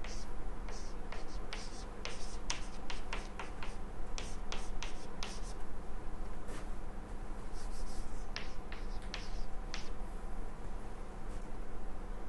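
Equations are written on a board in many quick, faint scratching and tapping strokes that come in clusters over a steady background hiss.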